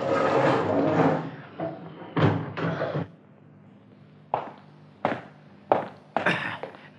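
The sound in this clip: A prison cell door in the Bastille is unlocked and opened: a scraping rattle gives way to a series of heavy wooden and metal clunks at irregular intervals, with no talk.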